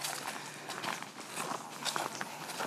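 Footsteps walk up towards Bøstrup Gård, a faint, steady run of many crunching steps in an even rhythm.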